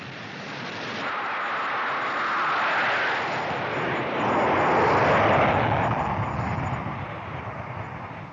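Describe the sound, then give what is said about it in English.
A passenger airplane taking off roars with a broad, steady rush that swells to its loudest just past the middle and then eases slightly, with no voices over it. “I'm asking that all passengers take their seats, extinguish their cigarettes, and do up their seat belts. We are ready for takeoff.”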